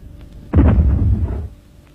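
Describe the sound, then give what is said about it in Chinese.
A single deep boom comes from a small homemade experiment set off inside a room. It hits sharply, then rumbles on heavily for about a second before fading into quiet noise. “二子刚踩踏了郑大爷家的小厨房，推土机手吴海波屋里又发出了爆炸声。这声爆炸不是地雷，也不是炸弹，是吴海波进行的小试验。”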